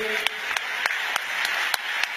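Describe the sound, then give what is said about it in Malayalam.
Congregation hand clapping at a church service: about seven sharp claps at a steady, even beat over a continuous wash of voices. “ഉറക്ക കൈയടിക്കാമോ? കൈകൾ ഉയർത്തി കൈയടിക്കാമോ?”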